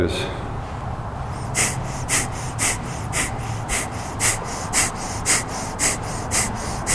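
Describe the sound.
During a kriya yoga warm-up, rapid rhythmic breathing sets in after a moment of talking. Sharp, forceful breaths repeat many times at a quick, steady pace.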